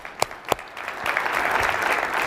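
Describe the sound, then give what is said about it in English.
Audience applause at a live talk opens with a few sharp separate claps, then swells into dense, steady clapping that holds at a moderate level to the end. “Let's clap it up for the youngsters.”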